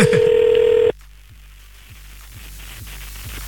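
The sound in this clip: A telephone number is dialed: a bright, steady electronic tone holds for just under a second, then cuts to a quieter line carrying faint, evenly spaced pulses.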